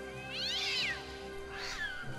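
A cat meows twice inside a musty, long-empty house with every door shut, the first meow drawn out and the second shorter, both clear over a steady tonal background.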